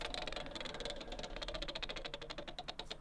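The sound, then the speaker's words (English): A spinning wheel, wound up and set turning, gives off many rapid, fairly even ticks over a steady rattling whir that runs throughout, with no talking. “So let me just get the wheel out, wind it up, and give it a spin.”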